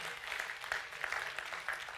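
Faint hand-clapping from a church audience praising God during a sermon. The claps come in soft bursts at an irregular rhythm.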